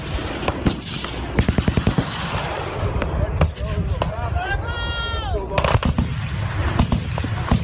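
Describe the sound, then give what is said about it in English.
Rapid military gunfire aimed at an aerial object in the sky, many sharp cracks in quick strings and scattered single shots, loud throughout over a continuous rumbling noise bed. “this is the actual gunfire of the Iranian military opening fire on this UFO.”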